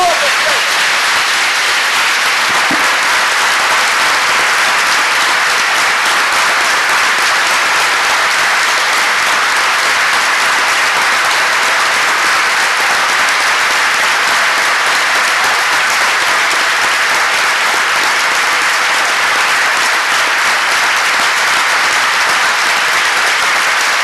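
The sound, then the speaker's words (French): An audience at a prayer crusade claps for the Lord in sustained, loud, dense applause that stays steady for the whole clip without a break. “Maintenant, nous allons acclamer le Seigneur. Now we are going to clap for the Lord. Pendant 30 secondes, for 30 seconds, de toutes nos forces.”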